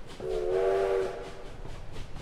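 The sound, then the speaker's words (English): A train horn sounds one steady, sustained blast, then cuts off, leaving the low rumble of the moving train. “That evening, after a day of hurried cabling and arranging, I bade my host adieu and took a train for San Francisco.”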